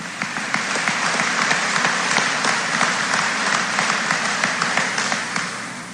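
Audience applause at a high school commencement ceremony congratulating the 2021 National Honor Society members, a thick, sustained clapping that holds level and eases off slightly at the end.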